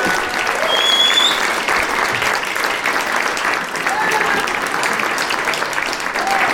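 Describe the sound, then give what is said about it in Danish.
Loud audience applause as a guest is welcomed onto a stage, a thick, continuous roar of clapping that swells early, dips slightly midway and carries on steadily to the end. “nu skal jeg give en kæmpe stor hånd til en pornostjerne. Giv mig en kæmpe stor hånd.”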